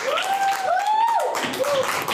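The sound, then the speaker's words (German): Applause after a short modelling demonstration: a steady, dense wash of clapping with high, excited voices calling out on top of it, loud and unbroken throughout. “Wow, Applaus noch mal.”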